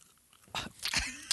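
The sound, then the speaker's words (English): Wet chewing of candy: a few short, smacking, crunchy mouth noises follow one another quickly, loud and without any talk. “This entire episode is just going to be wet, chewy sounds.”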